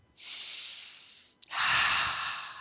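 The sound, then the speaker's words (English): A single deep breath with nothing else heard: a long, airy inhale, a brief catch, then a fuller and steady exhale of about the same length. “So I want you to take a deep breath.”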